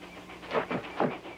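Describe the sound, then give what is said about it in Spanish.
A train comes into view around a bend, giving a few loud, rhythmic chuffing bursts with a breathy hiss over a steady low rumble. “¡El tren! Chris y Teddy se giran al ver el tren aparecer en la curva.”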